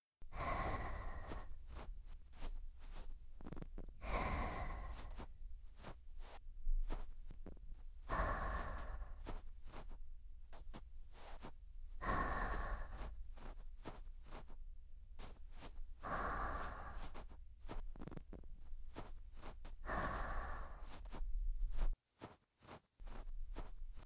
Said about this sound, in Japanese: それじゃあ、このまま耳かきさせてもらいます。